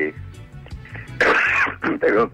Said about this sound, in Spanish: perdón que estuve tosiendo.